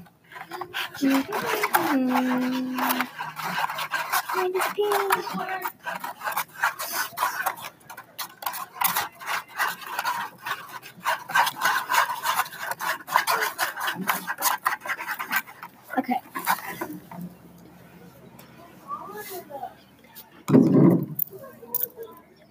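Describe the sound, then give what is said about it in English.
A mixture tinted with food coloring being stirred in a bowl: continuous rasping, scraping strokes with quick clicking taps, busy and uneven, ending with a heavier thump and a few scrapes. “Mix it up.”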